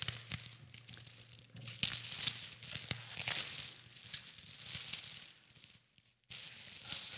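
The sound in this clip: Gift wrapping paper tearing and crinkling as a present is unwrapped: a run of rough ripping and crumpling bursts, a brief lull near the end, then more rustling.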